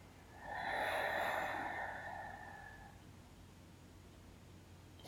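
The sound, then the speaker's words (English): A person breathing during a guided breathing exercise: one slow, airy breath that swells and then fades over a couple of seconds, quiet and alone, with no talk. “Breathe in. Breathe out.”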